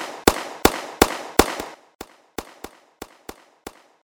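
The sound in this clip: Rifle gunfire on a firing range, one magazine of rounds: many sharp, cracking shots in an uneven sequence, the first few louder with short decaying tails, the later ones quieter and quicker.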